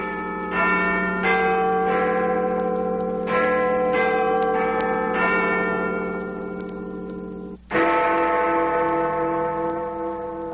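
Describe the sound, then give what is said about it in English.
A clock tower bell, identified as Big Ben at Westminster, rings a sequence of resonant chimes. Each strike leaves a long, humming tail that overlaps the next, and one heavier, louder strike comes near the end. “That's Big Ben and Westchester AB.”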